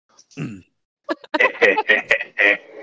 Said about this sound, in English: Gideon awkwardly clears his throat.